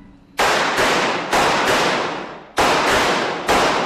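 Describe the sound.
Gunshots ring out at a firearms training range as shooters fire in turn: several sharp, loud cracks, each followed by a long, fading ring before the next shot.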